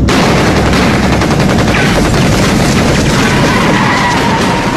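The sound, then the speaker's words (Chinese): Machine gun, rifle and pistol gunfire aimed at a car during a roadside ambush, a loud, dense and unbroken crackling barrage that continues throughout without pause. “机枪、步枪、手枪子弹一起向轿车射来，四五名车上的警卫奋力推开车门朝这边开枪还击”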